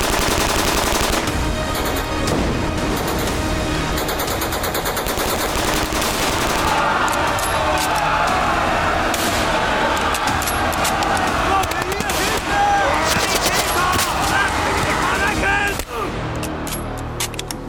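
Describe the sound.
Machine guns and other small arms fire in a World War II battle at Omaha Beach, a dense, continuous barrage of rapid overlapping bursts and cracks that stays loud for the whole stretch.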